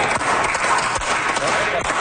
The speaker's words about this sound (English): Tired applause in the Manitoba legislature.